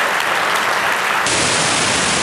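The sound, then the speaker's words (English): Audience applause at a talk event: dense, steady clapping that stays loud and even throughout, with no voices heard. “Please welcome them with a big round of applause.”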